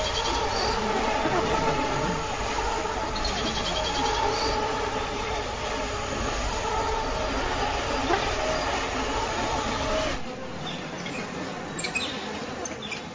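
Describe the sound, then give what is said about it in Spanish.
Millions of insects buzz after rain, a dense, steady drone that runs unbroken for about ten seconds before thinning out and shifting in tone near the end. “Cuando la lluvia para, aparecen millones de insectos.”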